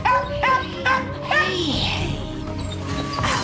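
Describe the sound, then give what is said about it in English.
A dog barks and whines in a kennel, letting out a few sharp, high yips and whimpers in irregular bursts over a continuous background. “goes up to the barking, jumping dog's kennel.”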